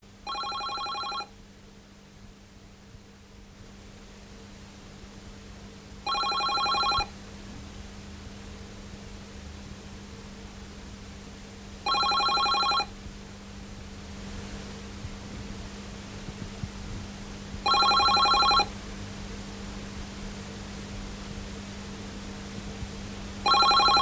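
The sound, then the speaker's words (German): Telephone ringing with an incoming call: five short electronic ring bursts spaced about six seconds apart, the last one cut off, over a steady low hum and faint hiss. “Ein Anruf eines Kollegen von der BBC.”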